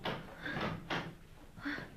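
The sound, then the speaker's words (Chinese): A door being opened, heard as a few broad scraping, rattling bursts of moderate loudness separated by short gaps, with no talk. “把门打开。”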